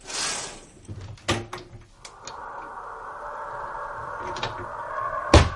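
A window is opened by someone about to climb out. A few knocks and clatters come first, then a steady creaking scrape lasts around three seconds and ends in a sharp bump.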